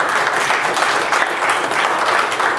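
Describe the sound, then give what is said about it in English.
A church audience applauds with thick, continuous clapping that stays loud and even for the whole short stretch, with no voices standing out. “Give the Lord a hand of applause.”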